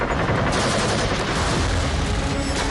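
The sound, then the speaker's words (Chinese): Machine guns in a bunker fire heavily at a river-crossing assault at night. The rapid, unbroken bursts are loud and dense throughout, with no pauses or voices. “板子矶上暗堡里的机枪疯狂扫射，子弹像暴雨一样倾泻而下”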